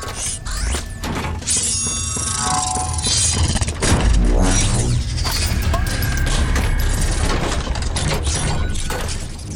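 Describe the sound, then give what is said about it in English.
Hospital machinery starting up all at once: a dense, continuous mechanical clatter of clanks, ratcheting and heavy thumps that stays loud and busy throughout, with a brief swell of extra force near the middle. “Abruptly, without warning, the hospital's machinery came to life.”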